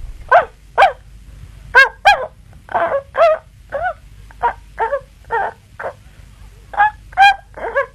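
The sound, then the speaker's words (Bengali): A small dog with a shaggy white coat gives many short, high-pitched, yelping barks in an uneven series, with no talk. “ওমা, এটা আবার কি গো বৌমা? কুকুর মা, এ আবার কিরকম কুকুর গো?”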